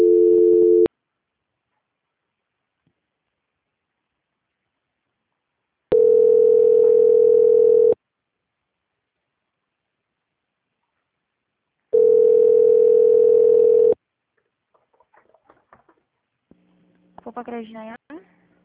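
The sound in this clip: Telephone ringing tone while a call is transferred: three steady, evenly pitched tone bursts separated by long silences, followed by faint voices at the end.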